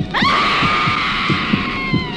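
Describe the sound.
A shrill, sustained human scream in a horror film, rising sharply then holding a high wavering pitch for about two seconds over a low rhythmic thumping pulse.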